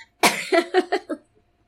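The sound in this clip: A woman coughs after choking on her own saliva. One sharp cough is followed by four quicker, smaller coughs in a tight burst, and then there is silence.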